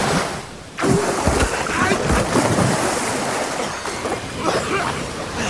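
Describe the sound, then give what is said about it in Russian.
A heavy splash as two people fall into murky water, followed by continuous churning and sloshing that stays loud to the end. “Оба падают в воду”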